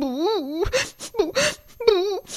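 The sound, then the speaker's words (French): A voice imitates the crying of a sad slug as a sound effect, with high, wavering whimpering wails broken by short, breathy sobs. “tellement triste qu'elle n'arrêtait pas de pleurer toute la nuit.”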